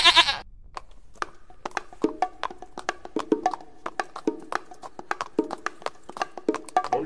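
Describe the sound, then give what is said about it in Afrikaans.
A small goat bleats in a quick series of many short, clipped calls with sharp onsets, repeating at a fairly steady rhythm at moderate loudness, with no talking over it. “Sy hoor iets. Wie is daar? Maar dit was net 'n bokkie.”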